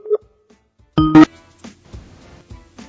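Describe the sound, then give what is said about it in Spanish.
Electronic telephone tones sound while a call is being placed: a short beep, a pause, then a louder burst of tones, followed by faint, sparse low sounds. “¡Uy! Está dando llamada. Número no disponible.”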